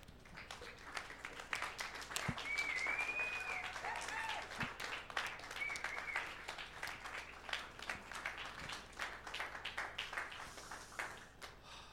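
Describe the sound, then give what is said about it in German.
An audience applauds in church with dense, sustained clapping that stays fairly even in loudness for the full twelve seconds. “Ihr Lieben, komm, wir stehen mal auf, weil Gott gut ist. Ich weiß nicht über den, aber ich würde ihm gerne einen Applaus geben, weil er wirklich gut ist.”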